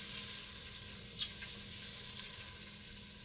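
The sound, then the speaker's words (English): Butter sizzling in a frying pan, heated before a turkey goes in: a faint, steady crackling hiss with a few soft pops, heard alone without talk. “I'm getting that butter going. I just need a little butter for flavor.”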